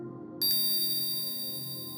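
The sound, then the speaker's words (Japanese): A hypnosis bell rings once with a bright, clear strike, then its pure metallic tone rings on steadily to the end over a low, constant background hum. “催眠ベルを聞くたびに頭の中にもやがかかる。”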